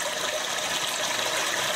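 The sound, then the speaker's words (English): An electronic device in a Japanese restroom imitates an endlessly flushing toilet, giving a steady, even rush of water noise with no breaks or changes in loudness. “A device that mimics the sound of an ever-flushing toilet.”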